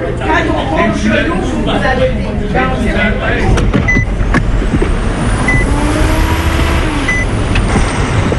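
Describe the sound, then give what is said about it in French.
Trucks idle at a huge highway truck stop on the outskirts of Edmundston, New Brunswick, among them a 55-tonne rig. A loud, steady, heavy engine drone is cut by a few brief bursts, with a thin high whine slowly rising above it. “À la sortie d'Edmundston, il y a un immense relais routier. Charanjit Singh prend une pause au volant de son 55 tonnes.”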